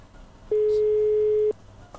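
A single ringback tone from an unanswered telephone call: one steady, mid-pitched electronic tone lasting about a second, heard alone over faint background hiss.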